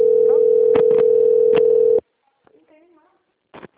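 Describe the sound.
A steady, loud telephone dial tone hums while a call is being placed, punctuated by a few clicks, then cuts off abruptly, leaving near-silence with faint line noises and a short burst at the end.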